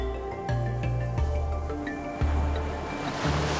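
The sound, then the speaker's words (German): Ocean waves rush on a white beach in a steady, continuous wash, joined by sustained low tones that shift in steps, with no voices. “mit dem nächsten Atemzug vor, wie du an einem weißen Strand bist. Du hörst die Wellen im Hintergrund rauschen.”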